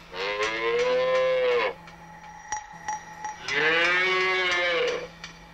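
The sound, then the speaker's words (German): Young cattle mooing in a dairy-farm barn, four heifers that have not yet calved: two long, loud, low moos separated by a quieter stretch of faint knocks, over a steady background hum. “Hier sehen Sie vier Rinder. Die geben noch keine Milch, weil eine Kuh gibt erst Milch, wenn sie ihr erstes Kalb gekriegt hat.”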